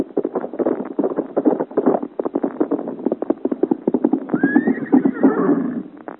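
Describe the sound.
A horse gallops hard along a road, its hooves striking in a rapid, continuous stream of many loud clip-clops. Partway through, a whinny rises over the pounding hoofbeats.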